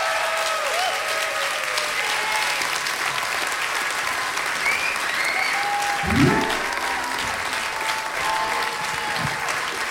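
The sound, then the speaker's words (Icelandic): An audience applauds a blues singer at a blues festival concert with steady, dense clapping that holds level for the whole stretch, mixed with a few voices from the crowd. “Ragnheiður Gröndal, gefi henni gott klapp.”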